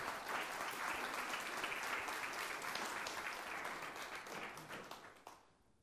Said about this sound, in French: Acclamons le Seigneur, s'il vous plaît.